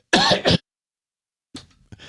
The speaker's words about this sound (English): Excuse me, I have to clear my throat.